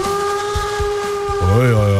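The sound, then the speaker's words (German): A locomotive whistle blows a loud, steady multi-toned chord over low rhythmic pulses. Near the end it swells louder and its pitch bends. “Hast du uns heute eine Lokomotive mitgebracht oder was ist hier los?”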